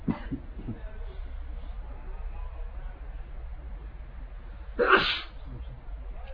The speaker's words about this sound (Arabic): يرحمك الله.